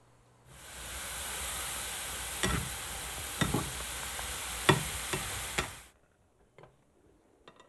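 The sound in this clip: Squirrel meat sizzles loudly in a pot as a steady frying hiss, broken by several sharp scraping clicks of stirring. The hiss then cuts off abruptly, leaving near silence with a few faint taps.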